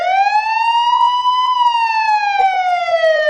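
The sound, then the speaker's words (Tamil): A loud emergency vehicle siren wails on its own as one continuous tone. Its pitch rises slowly through the first half and then falls gradually. “இந்த மாதிரி siren சத்தம் கேட்டா என்ன பண்ணுவீங்க? S, ambulance, fire engine போன்ற எல்லா அவசர வாகனங்களுக்கும் இந்த மாதிரி சைரன் சத்தம் கேட்ட உடனே”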